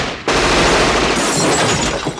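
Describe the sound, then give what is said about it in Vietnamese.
A burst of gunfire fired into the air starts abruptly and roars on as a loud, dense, continuous rattle for about two seconds. “Nói là làm, một tràng đạn nổi lên.”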